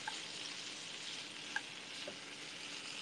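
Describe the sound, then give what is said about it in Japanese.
Pre-cooked chicken breast and broccoli fry in a pan with a soft, steady sizzling hiss throughout. A couple of faint pops rise briefly above it. “サラダチキン焼くことめったにないんだけど大丈夫かな。”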